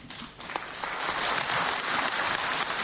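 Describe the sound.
Crowd applause at an opposition rally in Kyrgyzstan: a dense, rain-like patter of clapping that dips briefly near the start, then builds and holds loud and steady.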